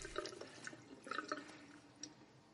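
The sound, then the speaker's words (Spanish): Water trickles and splashes softly as a person washes scratches in a bathroom, with a few faint drips scattered through the quiet, talk-free stretch. “En su baño se lava los arañazos.”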